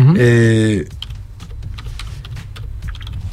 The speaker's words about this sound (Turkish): Ben de sosyal medyaya şunu yazıyorum, sosyal medyada internete yazıyorum.